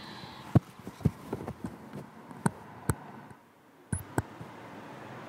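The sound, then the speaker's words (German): Clicks and plastic taps of batteries being swapped in a portable audio recorder while sitting on a bench, an irregular series of sharp snaps and knocks over a faint steady hiss, then a short quiet gap before two final clicks. “weil ich sehe, die Batterien gehen zur Neige beim Aufnahmegerät und die kann ich hier jetzt mal ganz gut wechseln.”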